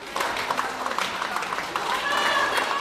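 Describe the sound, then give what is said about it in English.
Cheering and clapping from a crowd in Moscow as an international research crew steps out of a windowless space module after a 520-day simulated Mars flight. The applause is steady and moderately loud, with a busy mix of claps and voices. “That's the sound of people celebrating in Moscow today as an international crew of researchers emerged from a windowless space module.”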